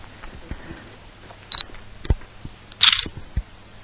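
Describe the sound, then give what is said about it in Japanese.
Camera shutter clicks while taking photos outdoors in pitch darkness at night: a few sharp, brief clicks at irregular intervals over a quiet background, one louder and fuller than the others. “真っ暗で、とりあえず写真を撮ります。”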